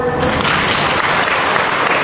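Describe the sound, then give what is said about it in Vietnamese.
Applause from an audience at a religious gathering: loud, continuous clapping from many people, thick and unbroken for the whole stretch. “tay to lên thưa anh chị em, vỗ tay to lên.”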